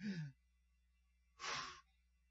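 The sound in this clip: A deep breath comes as two soft, airy bursts of breathing separated by a brief pause, faint and with no spoken words.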